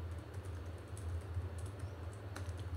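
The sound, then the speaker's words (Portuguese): Typing on a keyboard: a faint, quick patter of light key clicks runs continuously over a steady low hum. “Vou escrever aqui também para você.”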